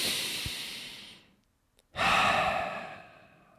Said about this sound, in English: All right, you're doing a big deep breath, okay? We're doing a big deep breath here.